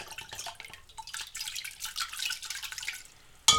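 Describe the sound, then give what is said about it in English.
Schnapps being stirred into a drink with a couple of quick stirs: soft liquid swirling and light clinks throughout, ending in one sharp, bright clink. “I'm going to pour my schnapps in. There we go. And then we're going to give it a couple quick stirs.”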